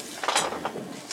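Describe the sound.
A cat knocking objects over produces a few soft knocking and clattering thumps in quick, irregular succession, fairly faint, with no voices.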